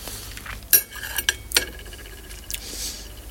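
A spoon clinks faintly while someone tastes hot sauce. A few light, sharp metallic taps are spaced irregularly over quiet background, with no talking.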